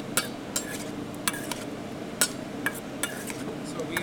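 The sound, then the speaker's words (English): Utensils clink and scrape against a bowl as cubes of fresh wahoo fish are tossed with fresh lime juice, giving a string of light, irregular taps over a soft, steady hiss. “He grabs a bowl. We got fresh lime juice. We're going to have some cuttlefish ink. I'm just going to toss this.”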